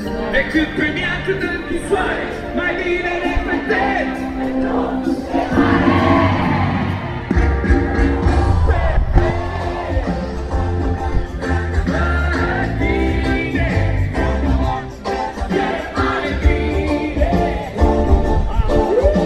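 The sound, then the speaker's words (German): A concert crowd sings along with a band playing emotional summer ballads, many voices merged with the amplified music in a loud, sustained mass of sound. “Man hört, wie begeistert die Leute mitsingen.”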